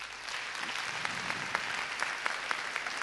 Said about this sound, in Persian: آفرین بر چنین مردی به دست براش بزنید